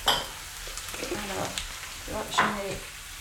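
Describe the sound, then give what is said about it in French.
Rice hits a hot pan and sizzles, a steady crackling hiss with scraping, stirring clatter throughout and a voice speaking in places. “Je vais ajouter mon riz.”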